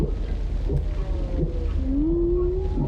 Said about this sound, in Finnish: Lauluja veteen. Valas puhaltaa vesisuihkun ilmaan ja sukeltaa.